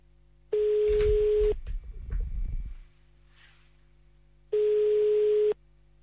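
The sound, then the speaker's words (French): Telephone line tones sound during an outgoing call: two steady one-second tone bursts with a buzzy edge, separated by a long gap filled with low rumbling handling noise. No voices are heard. “Ben écoute, nous allons appeler à Bruges.”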